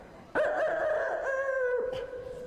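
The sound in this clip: A rooster crowing as a sound effect: one loud, clear cock-a-doodle-doo that holds its tone for about a second and a half, then fades.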